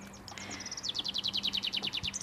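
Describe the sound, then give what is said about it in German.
A northern lapwing calls in flight. Many rapid, high, thin chirps come in an even rhythm and grow steadier after a short, ragged start. “Jetzt fliegt ein Kibitz. Ist das ein Kibitz? Ja, das ist es.”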